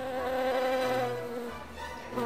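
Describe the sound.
Buzzing of bees around a mango tree where they are nesting: a steady, continuous droning hum that holds at a fairly even level throughout, with no voices.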